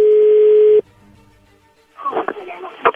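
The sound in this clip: A steady telephone line tone holds for under a second, then cuts off abruptly as a call connects, leaving a brief hush before a voice starts speaking.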